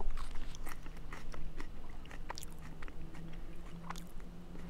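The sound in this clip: Chewing a freshly torn leaf of wild lettuce: soft, moist crunching bites repeating irregularly, with a low steady hum underneath and no talk.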